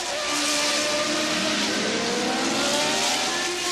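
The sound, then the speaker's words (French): A Renault 4L car drives off on the road to Saint-Lô, its engine a steady, unbroken drone with a buzzy mid-range hum that holds level for the whole stretch, with no voices. “Et au volant de sa vaillante 4L, se rendre à Saint-Lô ne lui prit qu'un instant.”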